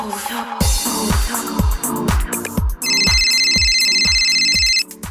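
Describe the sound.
A telephone rings for an incoming call, its bright, rapid trilling ring rising over a steady thumping rhythmic beat and holding for a stretch near the end.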